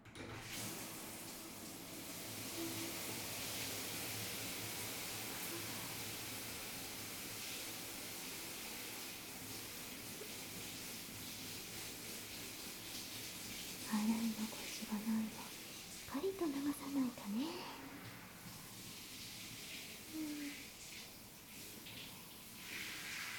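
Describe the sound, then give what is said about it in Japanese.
A shower sprays water to rinse off foam, making a steady, even hiss that lasts the whole clip. A brief, soft voice comes in partway through. “じゃあまた泡の時と同じようにシャワーで流していくね。”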